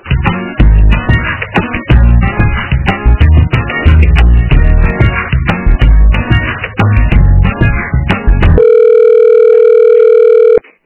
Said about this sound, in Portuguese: Acho que tá transferindo agora, pra ele pra atender.